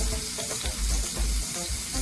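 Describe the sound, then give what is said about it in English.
Garlic sizzles in a small pool of hot oil in a tilted frying pan, making a steady, fairly quiet crackling hiss that continues without a break and has no talking over it. “Now what I'm gonna do is tilt this just a little bit so you get that little pool of oil. And then I'm gonna add my garlic in there, and that's gonna kind of flavor my oil.”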